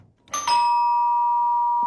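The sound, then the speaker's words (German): A home doorbell gives a brief initial strike followed by a bright chime that rings on clearly and steadily, alone against near silence, with a faint soft bump at the very end. “Das Läuten. Das ist ja das eine, was bei einem daheim läutet.”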